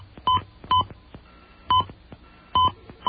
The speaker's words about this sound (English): Please dial your password and press pound.